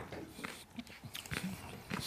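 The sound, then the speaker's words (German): Crunchy biting and chewing of a sour, lemon-scented fruit originally from Australia, taken by the spoonful; a few crisp, crackling bites and chews, fairly faint and close together. “Aber es knackt schön, also was man so hört. Es ist auch schön sauer.”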